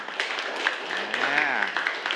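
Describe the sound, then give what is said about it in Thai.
Students in a classroom clapping for a classmate who gave a correct answer, a short patter of applause with a voice speaking over it in the middle. “เมื่อกี้ตอบมาเนี่ยถูกต้องยอดเยี่ยมมากๆเลยครับปรบมือให้กับเพื่อนหน่อย”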